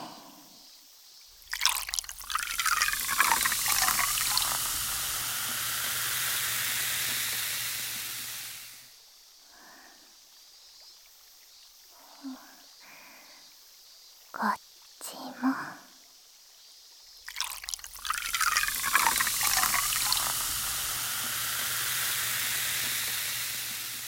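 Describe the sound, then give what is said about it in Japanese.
Liquid is poured close to the ear in two long stretches of bright, fizzing hiss. Between them come soft whispers and small drips and clicks. “じゃあちょっと後ろに失礼して、先輩の耳元でこれを注いであげますね。”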